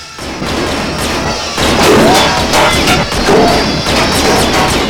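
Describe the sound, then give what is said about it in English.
Gunshots strike a spinning saw blade in a mill and stop it. Several sharp cracks and crashing impacts cut through a loud, dense mechanical clatter. “The saw blade is shot to a standstill, inches from Daniel's head.”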